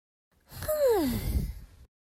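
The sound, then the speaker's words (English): A big, sleepy yawn: one drawn-out breathy vocal sound with a voiced tone that slides steadily downward in pitch, fairly loud and alone, fading out after about a second and a half. “Big yawn.”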